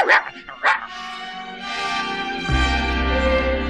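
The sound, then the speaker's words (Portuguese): A small mongrel dog barks twice in quick, high-pitched yips at the start, then a sustained musical backing takes over and continues to the end. “Cacá, o cachorrinho vira-lata mais engraçado do mundo”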